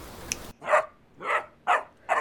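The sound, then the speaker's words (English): A puppy barks four times in short, bright yaps spaced about half a second apart, clear and alone after a brief stretch of hiss. “Hi, puppy! Who's a good boy?”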